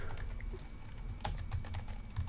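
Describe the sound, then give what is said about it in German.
Typing on a computer keyboard: a steady stream of many quick, light key clicks at an even rhythm, with a few sharper taps standing out, and no voices. “ihr hört die Tastaturtippen im Hintergrund”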